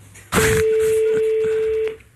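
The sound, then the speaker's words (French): A telephone tone sounds while a call to Canada is being placed: one steady, mid-pitched electronic tone held for about a second and a half after a brief burst at its onset. “Et après, vous appelez le Canada.”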